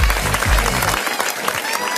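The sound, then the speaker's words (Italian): Applause in a game-show studio: dense, crackling clapping fills the whole clip, with low, sustained tones running beneath it during the first half. “Facciamo un applauso a DJ Tiga.”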